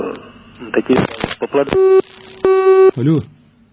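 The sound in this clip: Telephone busy tone after a caller's line drops: two long, steady beeps with a short gap between them, preceded by a brief voice, with a voice returning at the end.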